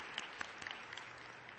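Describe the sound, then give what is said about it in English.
A round of applause for event sponsors, faint and steady, with a few sharper individual claps standing out from the soft, even patter. “So let's have a round of applause for our sponsors.”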